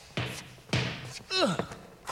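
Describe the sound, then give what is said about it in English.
A basketball is thrown and bounced on a court. A few hollow thuds are spaced apart, with a short rubbery squeak between the later ones. “Throw me the ball.”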